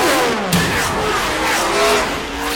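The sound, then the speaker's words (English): NASCAR Cup Series race cars roar with loud engine noise that stays steady, rising and falling slightly, with hints of tire squeal mixed into the continuous roar. “Live on the Motor Racing Network, it's the NASCAR Cup Series.”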